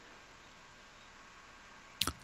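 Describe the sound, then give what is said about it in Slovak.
A calculator being switched on: a brief, sharp double click after a stretch of near silence, with no voices. “Hej, počkaj, ja neviem, koľko to je, počkaj, si zapnem kalkulačku.”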